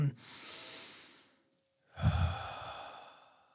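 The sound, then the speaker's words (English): Human breathing heard close-up through headphones: two slow, soft breaths separated by a short pause. The second is louder and carries a low, airy rush, like a deep sigh. “It's so much louder with the headphones on. Yeah. Yeah. Like you can actually hear breath.”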